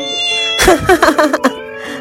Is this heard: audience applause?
no